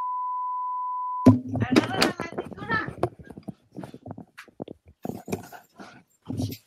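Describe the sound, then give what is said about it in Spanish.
A seismic alert warning sounds as a steady, unbroken high-pitched tone for just over a second, then stops abruptly. Several people start talking right after it. “Está sonando la alerta sísmica.”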